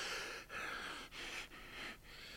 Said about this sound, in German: Er keucht, als er wieder aufrecht steht.